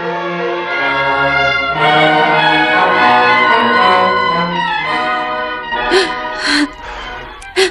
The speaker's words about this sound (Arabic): لما البكاء يا مولاتي؟